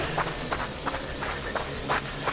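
Running footsteps beat out a quick, steady rhythm of many soft, evenly spaced steps over a constant background rumble, with no voices.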